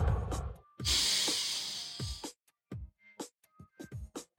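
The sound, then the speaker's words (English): A long, breathy exhale released after a held deep breath during a guided breathing exercise, a steady airy rush lasting over a second, followed by a few faint, short soft sounds. “let's just take a couple deep breaths. Hold it for a sec. Exhale.”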